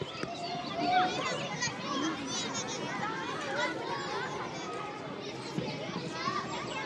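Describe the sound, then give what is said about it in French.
Children play in a school playground in Saint-Sulpice-la-Forêt: many young voices chatter, shout and call out over one another in a lively, continuous hubbub, with an occasional sharper cry rising above it. “La cour de l'école, c'est une bonne réponse.”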